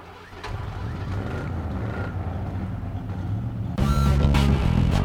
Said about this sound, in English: Everything stops. A car starts up